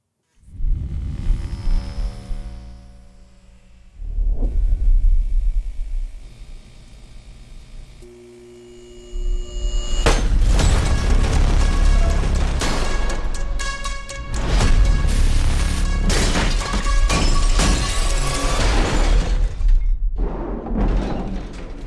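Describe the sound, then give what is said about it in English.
Trailer audio for the Five Nights at Freddy's film, loud droning music with sustained humming tones and low rumble that swells into a denser, brighter section partway through and continues to the end. “We got a second trailer for the Five Nights at Freddy's film, which is coming this Halloween.”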